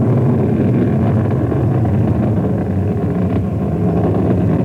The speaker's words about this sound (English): it's pitching over now to achieve the proper direction for that window in the sky where it must achieve orbit.